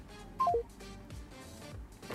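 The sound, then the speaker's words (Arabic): Telephone call tones: three short electronic beeps stepping downward in pitch, followed by a quieter stretch of line noise. “هناخد اتصال سريع جدا ونكمل حكايتنا. الو،”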